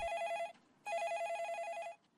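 A telephone rings for an incoming call to a call-in radio show with a doctor: two long electronic ring bursts, bright and steady, separated by a short pause, with no voices.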